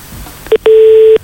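Telephone line tone on a live radio call-in after the caller drops off: one short beep, then a longer steady mid-pitched tone, both loud and alone.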